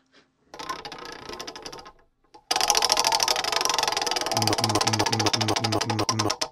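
A spinning prize wheel gives off rapid ratcheting clicks. They start softly, break off briefly, then return much louder and keep ticking steadily, and a repeating low tone pulses underneath near the end.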